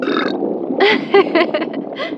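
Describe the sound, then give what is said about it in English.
A person burping repeatedly after eating until stuffed: a few croaky, throaty belches in close succession, fairly loud and without talk. “Two whole girls and not a single hiccup. Burping a lot though.”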